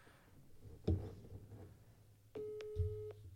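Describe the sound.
A telephone busy signal on a call: faint electronic beeps sound near the end, following a few low thumps and soft background noise.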